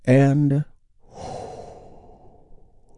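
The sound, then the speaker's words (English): Big, deep breath taken during a guided relaxation exercise: a short spoken phrase, then a long, slow, airy inhale that gradually fades. “We start by taking a big, deep, healing breath with me right now.”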